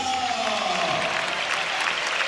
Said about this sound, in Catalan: Aplaudeix el públic.